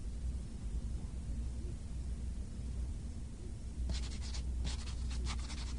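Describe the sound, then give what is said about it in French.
A pen writes a message on paper as a soft scratching under steady hiss, then a few sharper, brighter strokes toward the end. “Est-ce qu'elle écrit ce message sur un papier? Oui, elle écrit ce message sur un papier.”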